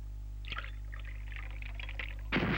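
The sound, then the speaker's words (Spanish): Whisky is poured into a glass with a faint gurgling trickle over a low steady hum, ending in a sudden louder burst of noise. “Estamos estudiando un whisky que apenas se echa en el vaso, elimina al enemigo al que se le ofrece. Fíjese.”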